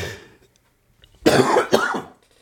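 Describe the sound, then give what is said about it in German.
Two harsh coughs in quick succession from a person, each a loud, rough burst that breaks a near-silent pause, the second shorter than the first. “Mann, jetzt muss ich hier husten, das ist ja furchtbar.”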